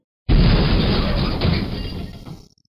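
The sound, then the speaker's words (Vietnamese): Earthquake rumbling up from underground in a fantasy tale, a sudden loud, deep roar that bursts in abruptly, swells again midway, then tapers away after about two seconds. “Mà đúng lúc này, dưới mặt đất truyền đến một tiếng địa chấn,”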